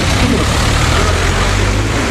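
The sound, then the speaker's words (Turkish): Heavy evening road traffic on the congested Tekirdağ-Istanbul highway: a loud, continuous rumble of engines with a low, steady hum underneath and no distinct pauses. “Akşam saatlerinde Tekirdağ-İstanbul karayolu böyleydi. Marmara Ereğlisi, Yeni Çiftlik, Yenice ve Beyazköy mevkilerinde trafik yoğunluğu vardı.”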